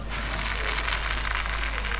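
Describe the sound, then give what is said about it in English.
Artificial rain from a rainfall simulator falls onto soil at an outdoor show on a hot day. It makes a steady, even hiss of fine droplets with no pauses, and no other sound is heard. “It's not real rain. It's rain created by the woman standing next to me, Jill Clapperton”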